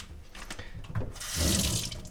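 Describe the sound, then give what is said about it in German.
Tap water runs into a kitchenette sink while mozzarella is drained, a steady hissing splash that swells louder in its second half. “Ja, ich muss erstmal den Mozzarella jetzt hier ein bisschen abtropfen lassen.”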